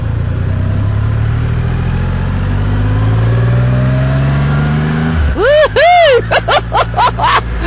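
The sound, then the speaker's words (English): Engine of a large, brand-new Triumph motorcycle pulling away through traffic in Vauxhall. The engine note climbs steadily in pitch for about five seconds. Then a man's voice talks over a lower, steady engine hum. “This bike is enormous. I'm just pulling away from the Triumph dealer in the Vauxhall Arches”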